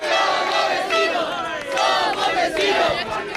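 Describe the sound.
A crowd celebrates at the border fence between Spain and Gibraltar, cheering and shouting in loud, surging waves of massed voices.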